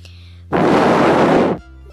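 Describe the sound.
A voice imitates blowing out flaming marshmallows: one loud, breathy blow lasting about a second, heard alone.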